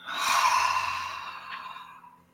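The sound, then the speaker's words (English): A single deep breath exhaled during a guided relaxation exercise. The airy, breathy release starts strong and slowly fades away, with no voice over it. “Relax. Take a nice deep breath and let it go. Two more times. Nice deep breath in. And let it go.”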